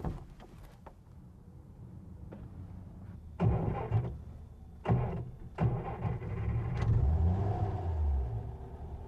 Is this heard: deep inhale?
no

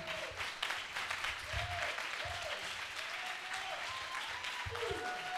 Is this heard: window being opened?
no

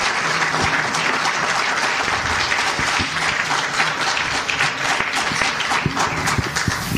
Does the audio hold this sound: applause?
yes

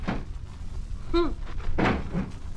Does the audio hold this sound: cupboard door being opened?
yes

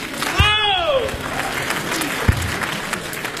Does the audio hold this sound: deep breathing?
no

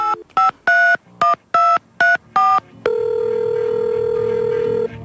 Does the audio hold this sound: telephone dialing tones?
yes

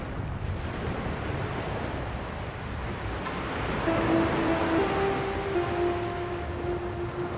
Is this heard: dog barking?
no

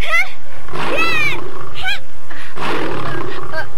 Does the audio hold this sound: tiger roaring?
yes

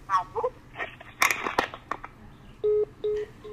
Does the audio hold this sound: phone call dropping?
yes

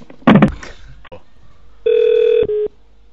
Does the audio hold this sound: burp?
no

